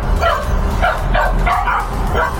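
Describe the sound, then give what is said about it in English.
A puppy barks in several short, high yips spaced across the moment, each bright and sharp over a steady low background rumble. “my sister's just got a dog”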